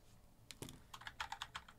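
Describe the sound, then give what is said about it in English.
Faint keystrokes clatter on a computer keyboard as a word is typed, a quick uneven burst of light clicks that grows a little busier toward the end, with no voices. “Let me type in certification.”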